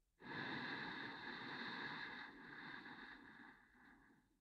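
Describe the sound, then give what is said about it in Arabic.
A long, deep inhale during a guided breathing exercise: one steady, airy draw of breath lasting around four seconds. It starts abruptly, holds at an even level, then gradually thins out. “فخلينا نبدأ. شهيق.”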